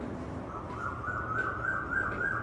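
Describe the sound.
A koel cuckoo calls during hot weather: a faint, sustained, whistle-like note that wavers slightly and dips now and then, running steadily over a low background rumble without other voices.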